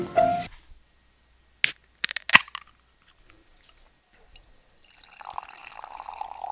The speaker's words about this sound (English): That sounds like beer.